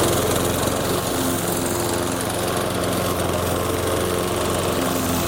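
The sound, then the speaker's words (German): A neighbour's lawn mower runs with a continuous, loud engine drone, steady and unbroken throughout with a rough, buzzing texture and no change in pace. “Ja, und am Schluss sind wir alle am Rasenmähen in Hörweite, oder?”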